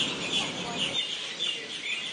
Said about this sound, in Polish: Kolejna wysiadka z promu i tu chyba nadaje ptasie radio.